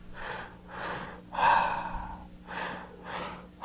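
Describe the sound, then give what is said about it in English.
Slow breaths during a relaxation breathing exercise: a series of about five soft, airy breath sounds, each rising and fading evenly, the middle one slightly louder, with no talking. “You're completely relaxing on the exhale.”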